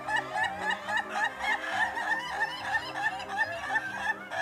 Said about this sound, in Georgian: კატეგორია დისკო, როდესაც მამალი 100 იცინის.